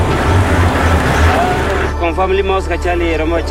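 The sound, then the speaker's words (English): A Jeep engine rumbles low as it crosses a bumpy stretch of road, with a few dull thumps from the jolts. Then the motor noise drops away as it stops, and voices talk. “The Jeep's headlights illuminate the grass ahead. A giraffe runs in the opposite direction. The Jeep drives over a bumpy portion of road and stops.”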